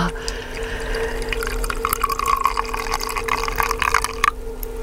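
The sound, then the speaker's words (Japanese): Hot water pours from a ceramic cooling vessel into a teapot holding new-season tea leaves, a continuous trickling, splashing stream at a fairly loud, steady level that cuts off shortly before the end. “これポットから直接じゃなくて、うん、陶器の入れ物でお湯を冷まして、うん、それを茶葉を入れた急須に入れていただくということですね”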